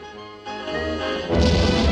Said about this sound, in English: The fuel catches fire, and the robot holds onto the edge of the hole with both hands. The force of the explosion blows it into the distance.